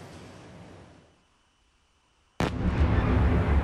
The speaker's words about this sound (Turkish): Birbiri ardına gelen patlama sesleri ve yükselen alevler.